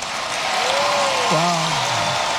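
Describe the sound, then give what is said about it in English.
Crowd applause, a strong ovation for a family, forms a dense, steady wash of clapping that holds at an even level for the whole stretch, with a voice briefly rising above it. “The family given a strong ovation by the crowd.”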